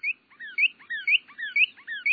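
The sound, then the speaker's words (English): A female cardinal sings in answer to a male, in quick repeated series of clear, slurred whistles that sweep downward, fairly loud and with no other sound around them. “It's a female cardinal, his mate, feathered in olive and muted red. Again, she answers his song.”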